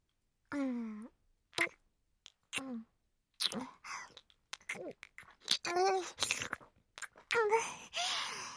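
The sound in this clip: Loud, deliberate wet sucking and slurping noises come in many short bursts, mixed with breathy voiced sounds and whispering in between.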